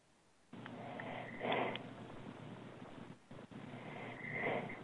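Heavy breathing into a telephone, rough and hissing, with a couple of louder, raspy surges of breath and a brief pause between them.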